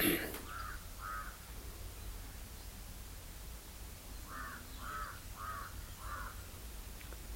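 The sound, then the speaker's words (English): A crow cawing, six harsh caws in all: two close together at the start, then a pause, then a steady run of four, each loud and clear over a constant soft hiss. “let the sound of crow reach you.”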